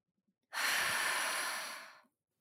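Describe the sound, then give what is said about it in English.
A single slow breath during a forward-fold yoga stretch, a soft airy exhale lasting about a second and a half that gradually tapers off, heard alone. “Take a breath in and let it out slowly.”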